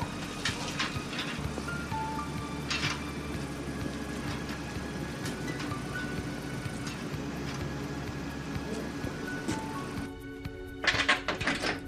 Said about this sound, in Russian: Выйдя из машины, открывают дверь.